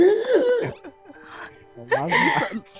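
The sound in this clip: A voice imitates a rock singer who only breathes in, making strained, asthmatic-sounding gasps. Two main voiced bursts with wavering pitch are separated by a short quieter sound.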